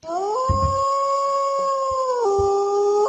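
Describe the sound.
A wolf howl sound effect played from a soundboard: one long tonal howl that slides up at the start, holds a steady pitch, then steps down near the end, with a few rough bursts beneath it.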